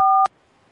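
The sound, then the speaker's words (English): A single touch-tone keypad beep pressed on a hotel phone menu: one steady two-tone note lasting about a quarter second that ends abruptly, followed by near silence. “If you know your party's extension, you may dial it at any time.”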